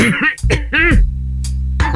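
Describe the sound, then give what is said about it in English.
A person clears their throat with a few rough, voiced rasps and grunts, loud and close, then settles into a low hum. “Let me clear my throat.”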